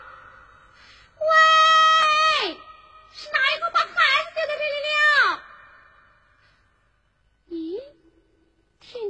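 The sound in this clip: Baby crying after being left at a doorstep, loud wavering wails that sag in pitch at their ends. A long cry and a broken run of sobs follow each other, then a quieter pause and one short final whimper.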